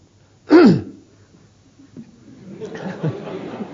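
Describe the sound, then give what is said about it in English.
Throat clearing during a sermon: one loud, short, raspy burst whose pitch drops quickly. Quieter, low, irregular sounds follow it. “That was just something in my throat. Excuse me.”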